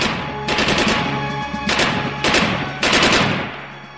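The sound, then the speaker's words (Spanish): Machine-gun fire in the shootout at the Moncada barracks: several loud bursts of rapid automatic shots, separated by brief gaps, with a dense, continuous rattling texture and no talk. “El ataque al cuartel Moncada no había salido como los revolucionarios esperaban. Se produjo un tremendo tiroteo.”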